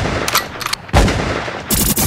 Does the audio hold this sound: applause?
no